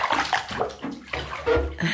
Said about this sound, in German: Ich lasse das Wasser ein.